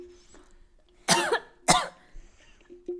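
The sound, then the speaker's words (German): Coughing from someone who choked on their own saliva: two sharp, harsh coughs in quick succession break a quiet stretch, followed by a few softer throat sounds. “Ich habe mich an meiner Spucke verschluckt.”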